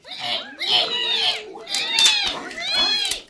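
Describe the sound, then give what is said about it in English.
Loud, high-pitched squeals from a boar breaking through a wall, in two long bursts separated by a brief pause. “That's the boar. He just broke through the wall.”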